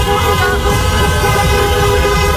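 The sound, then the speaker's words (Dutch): Car horns honk in a street celebration in Rotterdam, a loud, continuous blare of overlapping tones with no break. “Ja, en dat leidde natuurlijk ook tot feestelijkheden bij ons in de regio. In de stad Rotterdam bijvoorbeeld heel veel getoeter.”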